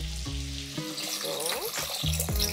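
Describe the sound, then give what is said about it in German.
Broth poured into a pot holding pasta with capers, olives and chili makes a bright splashing, hissing rush, with a voice heard at the start and again near the end. “Da kommt jetzt einfach nur Brühe drauf.”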